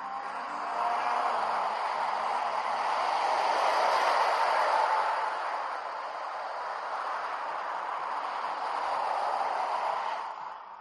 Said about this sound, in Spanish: Ahora, ahora un poquito. Bueno, pues ahí lo tenéis. Ese es el sonido del alpino, o sea que sí que ha salido a rodar en el Filming Day.